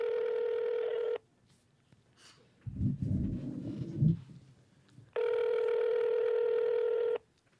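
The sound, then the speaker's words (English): Telephone tones sound as a call is placed: a steady, mid-pitched tone lasting about a second, then a stretch of muffled clatter and rustle, then a second, longer identical tone. “should we dial them up? I'll dial them up.”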